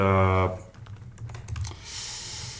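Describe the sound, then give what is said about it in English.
Typing on a computer keyboard, a quick irregular run of soft key clicks at moderate volume, following a brief voice at the start. “he's typing again”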